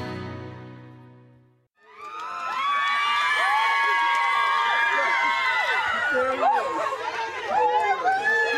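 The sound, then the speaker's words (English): A family joyfully being reunited: excited overlapping voices, cheering and children shouting rise into a loud, continuous burst of happy commotion. “The sounds of a family joyfully being reunited.”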